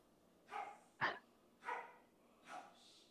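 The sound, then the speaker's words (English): Dogs barking: four separate, fairly faint barks spaced unevenly, each short and rough, with no talk in between. “all the dogs are contributing tonight.”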